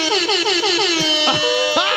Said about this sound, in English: They play the air horns, I love it. We've been using the same exact air horns on our morning show.